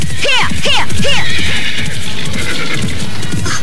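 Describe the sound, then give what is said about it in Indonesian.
A horse galloping fast under a rider, with rapid hoofbeats throughout and several shrill whinnies early on, loud and with no voices. “Seharusnya aku memang tak boleh berkuda terlalu kencang.”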